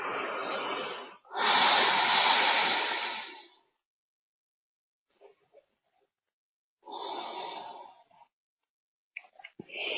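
Slow, deep breathing during a guided meditation: long airy breaths separated by stretches of silence, with a few faint short breath noises between them.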